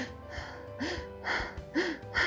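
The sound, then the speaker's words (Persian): Faint, quick heavy breaths of someone out of breath, a few gasping inhales and exhales in an uneven rhythm, with no talk. “نفس نفس می زد.”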